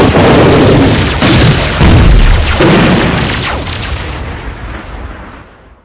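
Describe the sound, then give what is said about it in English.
A bazooka firing in a video game: loud booming blasts with a heavy, crackling rumble that stays loud, then slowly fades out. “Ah, a bazooka. Another one. Get ready for a double whammy.”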